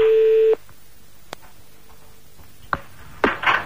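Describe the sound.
A single steady telephone tone from an outgoing call sounds for about half a second, then stops. A few soft clicks and brief noisy bursts follow on the line.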